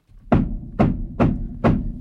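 Four sharp knocking raps as spirit rapping answering a count, evenly spaced about half a second apart, each a hard, solid thud with a short decay, heard alone in quiet.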